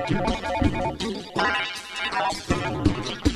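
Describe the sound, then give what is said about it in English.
A telephone rings with a splattery sound, likened to an AT&T Merlin office phone: a few harsh, warbling electronic bursts with short breaks between them, fairly loud and alone. “It sounds like a phone ringing. Splattery. Sounds like an AT&T Merlin phone.”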